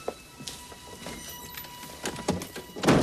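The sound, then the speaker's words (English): A door being shut: a few soft knocks and shuffles, then one solid, fairly loud thunk at the end. “They walk out, and Cutter shuts the door behind them.”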